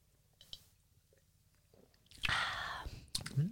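A soft sip of wine taken right after a toast among friends on the eve of New Year's, heard as a wet, breathy slurp lasting about a second, followed by a brief squishy mouth sound.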